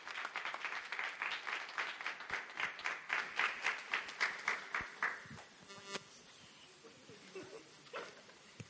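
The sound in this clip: Audience applause welcoming a guest speaker: a crowd claps steadily in a brisk, even rhythm for about five seconds, then the clapping dies away into a few scattered claps and small sounds.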